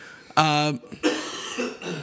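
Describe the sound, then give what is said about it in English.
A brief bout of coughing from a person, a short voiced throat sound and then a harsh, noisy cough burst, fairly loud against quiet background noise. “Excuse me. A brief coughing moment.”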